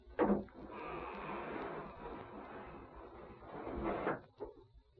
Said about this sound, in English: Now open that gate.